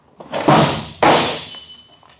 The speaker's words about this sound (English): I'll squirm my chair over there and knock the glass on the floor to break it.